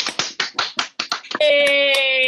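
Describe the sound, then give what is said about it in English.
A small group claps over a video call after being asked for a round of applause: a quick, uneven run of separate hand claps, then a steady, sustained tonal sound. “I think that's the first time I've ever asked for a round of applause on Zoom, but I think it worked.”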